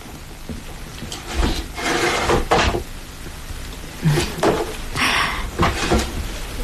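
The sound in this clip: A drawer being opened to fetch a small package, heard as a few bursts of sliding, scraping and knocking with short pauses between them.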